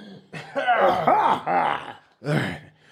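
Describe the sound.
A voice imitates exaggerated, dramatic coughing like a man hacking through speeches: a run of strained, voiced coughs and groans with wavering pitch, then one more hack after a short pause.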